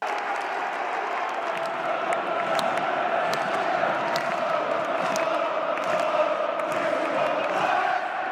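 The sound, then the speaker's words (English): Crystal Palace football supporters chanting in unison, a sustained, rhythmic, roaring crowd chant with scattered claps over about eight seconds. “That was the Crystal Palace crowd.”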